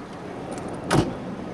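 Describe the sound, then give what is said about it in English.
A car door thumps shut once as someone gets into a taxi cab in downtown Nogales, Sonora. The dull knock is brief and sits over low, steady background noise. “I get in a cab and follow them through downtown Nogales, Sonora”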